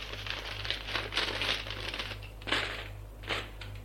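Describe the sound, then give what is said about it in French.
Paper rustles and crinkles as a letter is slipped into an envelope and the flap is closed. Several soft, uneven bursts of crumpling sound play over a low, steady hum. “mets la lettre dans une enveloppe. La ferme.”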